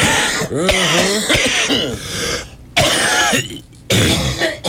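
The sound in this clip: Wet, phlegmy coughing and throat clearing, a few long harsh rasping bursts with gravelly voiced strain, loud and broken by short gaps, on a day marking lung health.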